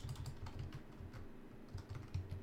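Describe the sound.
Typing on a computer keyboard: fairly quiet, rapid keystrokes that come in irregular bursts of clicks with short pauses between them.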